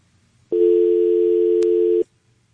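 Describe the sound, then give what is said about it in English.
A telephone dial tone sounds on a call-in line: one steady, unbroken hum for about a second and a half, with a brief click partway through, then stopping abruptly into quiet. “everybody that we had a dial tone, I hope you will pick the phone back up.”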